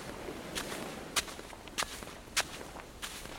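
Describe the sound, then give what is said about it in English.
Trudging footsteps on sand from someone carrying a very heavy box. A few faint, slow, heavy thuds land at uneven intervals over a quiet background. “Ah, but what's this noise? Someone has just come trudging along, carrying a very heavy box.”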